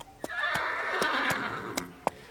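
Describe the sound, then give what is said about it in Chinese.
A small horse out on the grassland gives a long, wavering whinny lasting over a second. Several sharp hoof clops punctuate it and continue after the neigh fades. “现在呀就带你去大草原，去听一听马的声音。哎呀，快看这只小马，”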